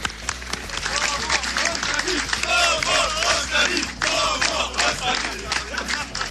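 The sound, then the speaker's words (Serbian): A crowd chants in unison for President Nikolić, with a loud, rhythmic mass of voices surging and falling in repeated waves. Some clapping is mixed in. “Gospodine Nikoliću, kao i ono vaše, i ovo je bila skraćena verzija skandiranja.”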